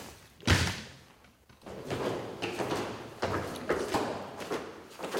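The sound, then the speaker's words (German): A door is shut and locked: a sharp, heavy thump, then a run of softer clunks, rattles and scrapes at a moderate level, with no talking. “Da muss ich wieder abschließen, sonst werde ich gekreuzigt hier.”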